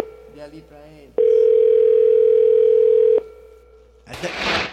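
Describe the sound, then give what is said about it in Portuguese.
Telephone dial tone while a call is being placed: a loud, steady, unbroken tone lasting about two seconds, with talk just before it and a short burst of noise after. “Vou ligar de novo agora.”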